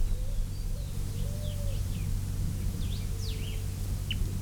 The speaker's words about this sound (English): Three birds still interacting.